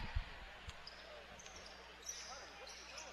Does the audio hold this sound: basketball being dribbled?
yes

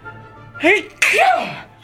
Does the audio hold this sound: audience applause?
no

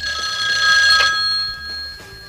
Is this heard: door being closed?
no

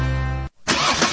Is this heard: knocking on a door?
no

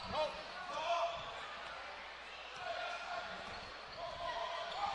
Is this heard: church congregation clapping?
no

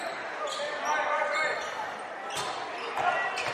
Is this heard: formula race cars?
no

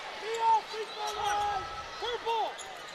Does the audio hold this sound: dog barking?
no

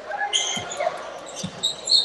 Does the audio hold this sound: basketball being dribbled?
yes

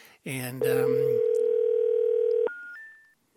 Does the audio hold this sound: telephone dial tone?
yes

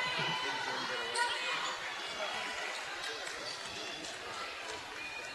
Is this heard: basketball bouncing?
yes

